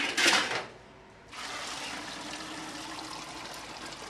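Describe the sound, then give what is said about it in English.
Running water in the kitchen at Decorah High School in Northeast Iowa, where workers prepare food. A short splashing burst fades, then a steady trickling flow takes over. “The smell of baking dinner rolls fills the kitchen at Decorah High School in Northeast Iowa. Two kitchen workers mix a fresh broccoli salad while culinary specialist Chad Elliott packs up tomato soup.”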